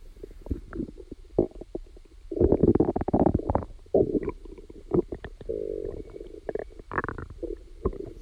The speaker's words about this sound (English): You had microphones in your mouth, and you even recorded digestive sounds. Maybe we can listen also into that.